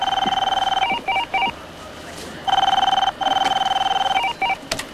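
Telephone ringing with an electronic tone: warbling, harmonic bursts repeat in a steady ring-and-pause pattern, moderately loud and alone.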